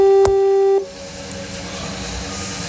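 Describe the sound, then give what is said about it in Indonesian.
Ringback tone of an outgoing phone call before it is answered: one steady mid-pitched tone with a faint click, cutting off abruptly after under a second, followed by low line hiss and a couple of soft clicks. “Kita telepon nih. Sebelum diangkat.”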